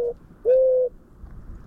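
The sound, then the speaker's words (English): A dove's call: one long, soft, steady low coo stands out clearly after the clipped tail of an earlier note, with only faint background hiss and no voices. “I think I figured out why you guys couldn't hear the dove call, so I'm going to play it again and hopefully it works this time.”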